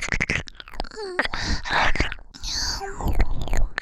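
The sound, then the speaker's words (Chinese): Chewing a large steamed meat bun, with wet mouth clicks and smacking mixed with soft breathy vocal sounds, close and fairly quiet. “好舒服啊，好好吃啊，大肉包。”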